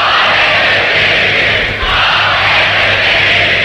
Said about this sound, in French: Acclamant Élisabeth II, les pères du royaume ont coiffé leur coronet.